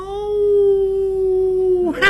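A long wolf howl at night in a pine forest at the foot of a mountain: one sustained, steady-pitched note lasting about two seconds that dips at its end, followed by a brief burst of other noise.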